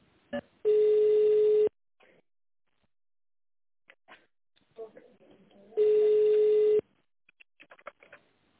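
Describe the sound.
A telephone ringing tone plays while a call is being transferred. Two steady, low-pitched tones each last about a second, separated by a long pause filled with faint clicks and rustles.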